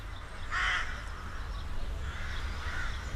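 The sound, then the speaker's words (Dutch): Rooks from a large colony in the middle of a city give one loud, harsh caw followed by a few fainter rasping calls over a steady low background rumble. “In de Vroege Vogels TV-uitzending over Zutphen, waar we een tijdje terug waren, gaan we ook op zoek naar de roek. Er zit een enorme kolonie midden in de stad.”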